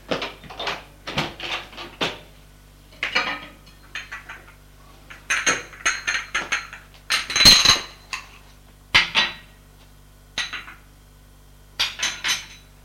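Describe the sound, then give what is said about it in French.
A bowl and spoon are set down on a breakfast table, making many short, bright clinks and clattering knocks in irregular bursts separated by brief pauses, with no voices. “Le jeune homme va au buffet prendre un bol, une cuillère pour déposer à côté de Maurice.”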